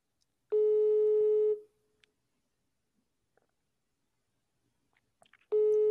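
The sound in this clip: Ringing tone of an unanswered phone call played on speaker: a steady mid-pitched tone lasting about a second, a long silence, then the next tone starting at the end.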